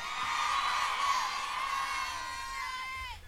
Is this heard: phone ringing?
no